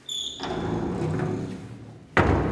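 A heavy gate to the underground cellars beneath Nuremberg is being shut: a low, rumbling movement ends in one loud, abrupt thud.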